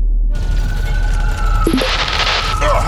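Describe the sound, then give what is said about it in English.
Dense, continuous barrage of gunfire from Kogan warships swarming and shooting inside a sphere, a steady loud roar of overlapping shots with no distinct single bursts, threaded by a thin electronic whine and a few brief chirping tones. “This sphere is infested with Kogan warships. Oh no. There are thousands of them! Just shooting up the place!”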